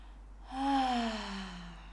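A deep exhale during a guided breathing exercise, released as a quiet voiced sigh whose tone slides gently downward over about a second and a half, alone with no talk.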